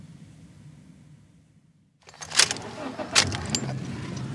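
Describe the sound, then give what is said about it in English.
A car drives the last couple of blocks and pulls into a driveway. A low, steady engine rumble fades almost to quiet, then louder clunks and rattles follow. “We drive the last couple of blocks to the house and park in the driveway.”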